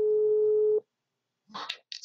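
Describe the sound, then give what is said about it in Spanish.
A telephone line tone plays while a call is placed back: a single steady, mid-pitched tone for under a second, then a silent pause and a few short, brief noisy sounds. “no sé qué está pasando. Ya le estoy marcando.”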